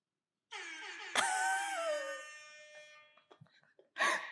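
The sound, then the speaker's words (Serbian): An air horn hype sound effect plays as a long, faint, buzzing blast. It jumps sharply louder about a second in, its pitch sagging slightly as it fades, then breaks off in a few short stutters. “Hype sound. A sve je to dugo, pa sam... Evo ga, evo ga. Trubica.”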